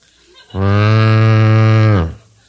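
A cow lets out a single long, loud moo with a steady, deep pitch that tails off at the end.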